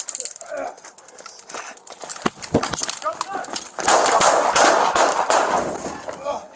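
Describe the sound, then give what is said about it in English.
A gunshot cracks out as police confront a man holding a knife. The sharp report stands out against loud commotion and raised voices. “one shot's fired.”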